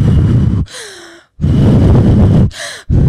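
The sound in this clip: A voice imitates the sharp gasp of someone lowering into ice-cold water for an ice bath: loud, rough breathy rushes of air surround two short voiced gasping cries, the first sliding downward in pitch.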